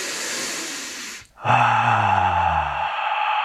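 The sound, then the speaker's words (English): A deep breath during a breathing exercise: a breathy rush of air, a brief pause, then a drawn-out voiced moaning sigh whose pitch sinks gently as it trails on. “And also experiment with making a sigh or a slight moaning type sound as you inhale. So you take a deep breath.”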